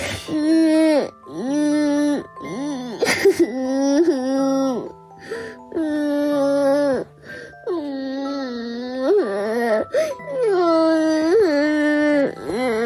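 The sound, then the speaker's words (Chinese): A child cries during lockdown at home, loud, drawn-out wailing sobs that rise and fall in many breathy bursts with short gaps, alone without talk. “你这哭起来倒挺快的啊啊，瞬间就哭了。跟我说说呀，哭什么？”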